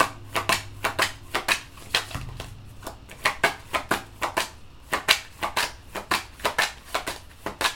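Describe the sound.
Playing cards being handled from a deck during a card trick, giving many crisp, sharp snaps in a fairly steady rhythm, each short and bright, with no talking.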